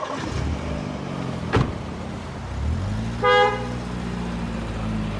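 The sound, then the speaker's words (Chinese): A car driving off, its low engine rumble building and holding steady, with one short bright horn toot in the middle of the pull-away. “纳伟带着沈凌开车离去了，父母一直看着车子渐行渐远。”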